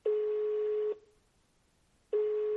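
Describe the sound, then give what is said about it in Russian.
Telephone line tones from a public payphone as a number is called: two long, steady tones at a single pitch, separated by a pause of about a second. “Потом остановилась, решилась и набрала номер.”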